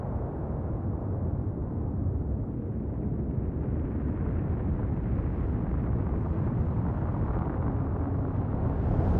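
A volcano erupting and hurling ash, cinder and lava bombs makes a deep, continuous roaring rumble. It stays loud and steady throughout, with no breaks or separate blasts.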